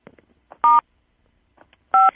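Two telephone keypad tones sound on a conference call as the lines are muted, each a short, loud, steady electronic beep separated by a pause of about a second, with faint soft clicks between them.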